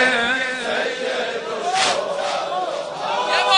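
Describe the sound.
Crowd chanting in unison at a religious mourning gathering with Karbala refrains: many voices rising and falling together in a steady rhythmic chant, loud and continuous throughout.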